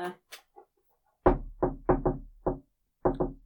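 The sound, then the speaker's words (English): Knocking on a door, made as a sound effect: seven sharp, loud knocks in uneven groups, a few close pairs and single raps, after a few faint brief sounds at the start. “You might as well give him a knock, can't hurt.”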